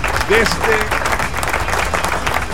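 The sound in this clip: Audience applause, a dense and even wash of clapping under a speaking voice, holding steady for the whole stretch.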